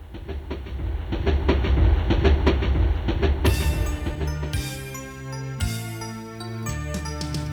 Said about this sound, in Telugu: బండి వస్తోంది పక్కకి పక్కకి జరగండి, ఆగినాక ఎక్కండి